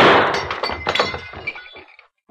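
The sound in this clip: Glass from a light shot out by gunfire shatters in a loud crash, then many tinkling, clinking fragments scatter and fade out over about two seconds.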